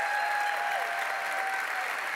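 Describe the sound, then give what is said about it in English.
Audience applause for a children's performance group at a church service, a steady, even wash of clapping throughout, fairly quiet, with a thin sustained tone running faintly underneath. “We'll give them a good big hand of applause there.”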